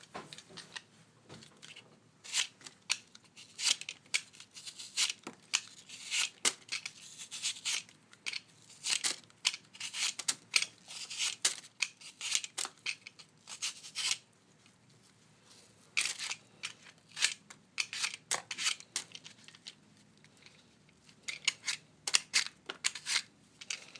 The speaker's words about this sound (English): Now I wonder if I ought to peel it. I think I probably did. Let me find a peeler. That one will do.